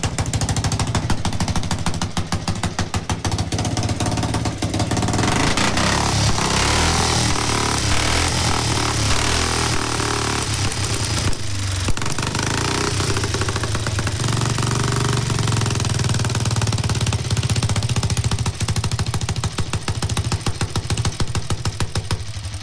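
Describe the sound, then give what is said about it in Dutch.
A big-twin motorcycle engine runs steadily, from a factory-racer-style bike with exposed pushrods and rocker arms. Its loud, dense mechanical rattle and throb hold continuously throughout, with no talk over it. “En wat ik zo mooi vind, die, die stoterstangen, die zie je gewoon aan de buitenkant op en neer gaan. En de tuimelaar is ook van de kleppen.”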